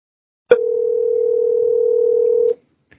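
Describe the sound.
A telephone dial tone plays while a call is placed to a guest: a single steady, mid-pitched tone lasting about two seconds, followed by silence and a couple of faint clicks.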